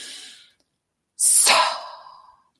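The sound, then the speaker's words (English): A deep breath drawn in during a guided breathing practice, a loud airy rush lasting about a second that fades gradually, following a fainter breathy sound at the start. “we're going to breathe in”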